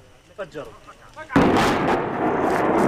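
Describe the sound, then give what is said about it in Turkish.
Explosive demolition of a house in the West Bank: brief talk gives way to a sudden deep blast, followed by a loud, sustained rumbling roar of collapsing debris that stays heavy to the end. “Patlayıcı yerleştirilen ev saniyeler içinde yıkıldı.”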